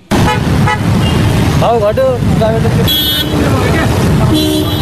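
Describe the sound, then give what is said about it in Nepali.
Cars and motorcycles queue in a long line at a petrol pump in Lalitpur, a steady engine rumble with a few horn toots and some voices mixed in. “ललितपुरको साझा petrol pump अघि तेल भर्न आएका motorcycle र गाडीको लामो line छ।”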